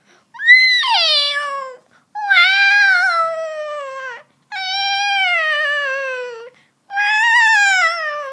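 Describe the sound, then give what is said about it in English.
Baby kittens meow in four long, loud, high-pitched mews, each one tonal and mostly sliding downward in pitch, separated by brief silent gaps. “it was the baby kittens. There was 9 cats.”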